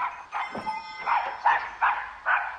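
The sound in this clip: A voice imitates a big dog barking in a workshop, giving a series of gruff, evenly spaced woof-like barks at a steady rhythm, with no other sound around them.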